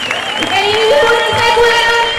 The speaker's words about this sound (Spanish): voy a poner el micrófono para que podáis ahora mismo escucharles las consignas que cantan y también cómo agitan las llaves. Ahora mismo están aplaudiendo